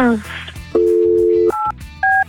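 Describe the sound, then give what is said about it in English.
Telephone dialing to call someone: a steady dial tone sounds first, then two short, higher electronic keypad beeps follow with a gap between them. A voice is heard briefly at the start. “All right. Let's get Mike on the phone.”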